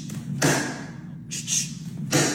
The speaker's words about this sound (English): You can make your ass sound like a gunshot.